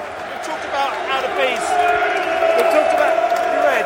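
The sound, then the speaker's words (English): Football fans in the West End stand make loud crowd noise, with rousing sung chants and cheering that build and continue steadily. “We're in the West End here. Everyone's standing, everyone's clapping.”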